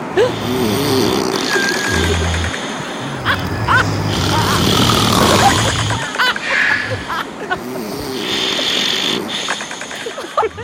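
Loud snoring from someone who has just fallen asleep: coarse, low, rasping breaths that rumble in a few long drawn-out pulses, with other rustling noises overlapping.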